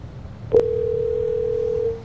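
A telephone dial tone while a number is being dialed: a sharp click, then a steady single-pitched hum holding for about a second and a half before it cuts off.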